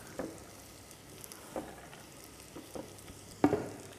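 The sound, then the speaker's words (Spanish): Potatoes and carrot frying in oil for a lentil stew: a faint, steady sizzle with a few brief, louder bursts of crackle and stirring scattered through it. No voices. “Vamos a añadir las patatas y la zanahoria.”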